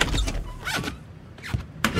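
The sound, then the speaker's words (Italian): A door is opened with a few loud mechanical sliding and whirring bursts, separated by short gaps. “Mi aiutate ad aprire la porta?”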